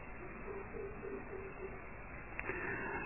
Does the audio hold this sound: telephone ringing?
no